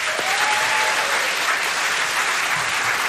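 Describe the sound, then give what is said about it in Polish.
Dense, steady applause from a studio audience at a live band-and-choir session in a radio studio, a continuous loud wash of many hands clapping throughout with no pauses. “Naprawdę, wielkie brawa dla Was.”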